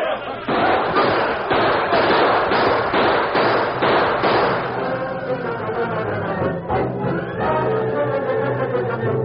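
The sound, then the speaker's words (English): Gunshots ring out as a large group of armed men springs an ambush on surprised, outnumbered outlaws: many sharp bangs pile up in a fast, loud run over the first half, then a dense, noisy commotion carries on. “A few shots were fired, but the outlaws, taken by surprise and outnumbered, were quickly overpowered.”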